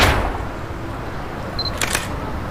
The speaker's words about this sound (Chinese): 你好，我给你拍了一张照片，我是摄影家协会的。